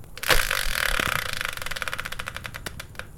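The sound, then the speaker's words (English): A prize-wheel spinner of the game-show type whirs through a rapid, steady run of bright ticking clicks. The clicks grow sparser toward the end. “So let's bring in the Wheel of Fortune style spinner and find out what today's subject will be.”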